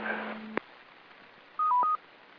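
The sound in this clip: Touch-tone DTMF signals sent over a ham radio repeater to take it down: a tone over hiss, then a sharp click, then after a pause a short burst of clear dual tones.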